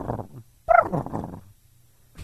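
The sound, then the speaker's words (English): A person imitates a turkey with their voice, giving a short guttural burst and then a longer warbling, gobble-like call before falling quiet. “You do a dolphin? No, I do turkey.”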